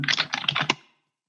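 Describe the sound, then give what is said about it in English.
Typing on a computer keyboard: a quick burst of a dozen or so light, clicky keystrokes in under a second, then quiet. “You know, you type in the name, right?”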